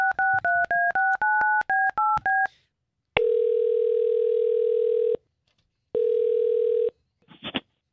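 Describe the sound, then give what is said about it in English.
Telephone being dialed to call someone: a quick run of many short keypad tones, then two long steady ringback tones separated by a pause, ending on a brief click. “all we're going to do here is try to take this number that you gave us for Jennifer. We'll call her.”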